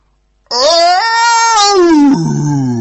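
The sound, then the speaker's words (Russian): An eerie cat scream: one loud, drawn-out wailing yowl that starts abruptly, holds a high, strained tone, then slides down and drops into a lower, rougher cry at the end. “Это был самый жуткий кошачий крик на свете.”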